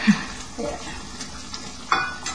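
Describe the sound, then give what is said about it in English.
Curry simmering and being stirred in a pot, seasoned with black pepper, gives soft sizzling with a few brief scraping stirs and light clinks, with no talk over it. “Now we let it simmer, and then check out if the taste is good.”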